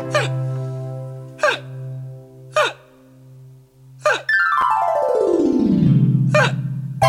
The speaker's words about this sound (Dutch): Nou, ik heb ook nog de hik.